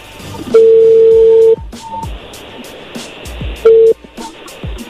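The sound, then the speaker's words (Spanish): A telephone line rings after a number is dialed: a steady mid-pitched ringing tone holds for about a second, then a shorter tone returns later over a low hiss with faint clicks. “A ver, ahí se está marcando por última, a ver si nos contesta.”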